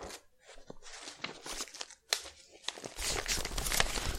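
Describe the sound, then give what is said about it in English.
Official score paper being handled, crinkling and rustling in irregular bursts that grow denser and more continuous toward the end. “What you're hearing right now is official score paper for the Quiz Fix podcast.”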